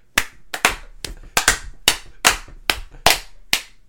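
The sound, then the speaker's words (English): Two people playing patty cake clap their hands very loudly right beside the microphone. The sharp, crisp claps come in a quick, slightly uneven series with no voices. “Because we were not only clapping very loudly, but directly beside the microphone.”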